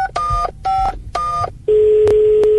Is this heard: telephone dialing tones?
yes

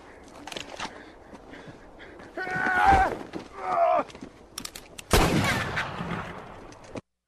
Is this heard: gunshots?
yes

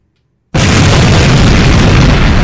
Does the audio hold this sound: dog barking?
no

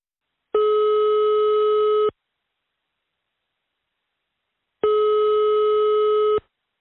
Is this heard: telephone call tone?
yes

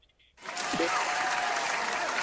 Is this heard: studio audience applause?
yes

